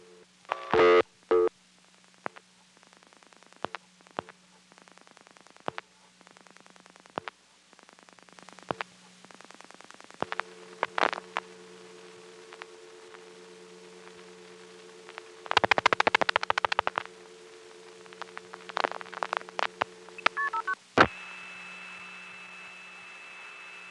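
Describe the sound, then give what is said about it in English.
Telephone switching sounds from a call dialed through an NX1 exchange and hung up mid-sending as it is ticketed: sharp clicks and tone bursts scattered irregularly, a louder buzzy stretch midway, and a steady held tone near the end. “Now I'm going to dial 1-592 plus 4 digits, which is a call that goes through another NX1, but I'm going to hang up in the middle of the sending. Again, notice the sound of the call being ticketed.”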